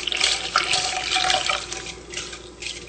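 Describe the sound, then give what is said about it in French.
A cup and a half of brown sugar and cold water are stirred together in a pot, giving a wet swishing and sloshing with a few splashy bursts and no talk. “on mélange dans le chaudron le sucre brun, une tasse et demie, l'eau froide, on mélange bien,”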